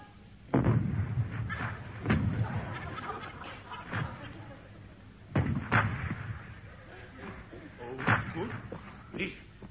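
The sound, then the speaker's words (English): Ship's guns open fire as a comedy sound effect: a string of booming blasts at uneven intervals, with voices talking between the shots. “I am ordering you to open fire. But suit yourself, sir. Be it on your own head. Open fire, fire, fire!”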